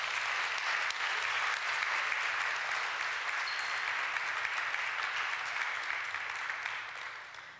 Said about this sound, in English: I want you to welcome him by putting your hands together as he comes forward.